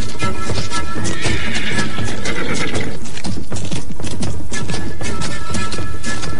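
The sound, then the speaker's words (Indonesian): A horse neighs loudly amid continuous hoofbeats as it tramples snakes scattered on a village road, the shrill whinnies riding over a dense, heavy clatter of hooves. “Dengan tanpa gentar sedikitpun, Tunggul, kuda sakti yang disebut-sebut sebagai kuda setan di sekitar Bukit Tunggul, menginjak-injak ular-ular yang bertebaran.”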